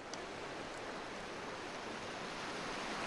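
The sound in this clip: River water flows past a bank as a faint, steady, broad rushing wash that stays level throughout, with no voices.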